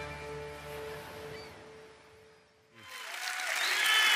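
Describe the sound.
Audience applause welcoming a guest speaker at a church morning service: sustained tones fade away, then clapping swells up and builds through the final second and a half.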